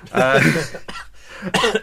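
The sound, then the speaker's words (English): A person coughs in a couple of short, harsh bursts, following a stretch of voice at the start. “No, please cough down people's ears on the while they're sat on the train to work.”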